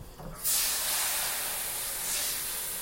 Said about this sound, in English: That's one hot pan. Please don't burn me.